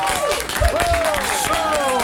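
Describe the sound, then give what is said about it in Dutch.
A studio audience gives festive applause for a radio presenter's birthday. Steady, fairly loud clapping runs throughout, with a few rising and falling whoops and cheers over it. “Mag ik een feestelijk applaus voor Felix Murders!”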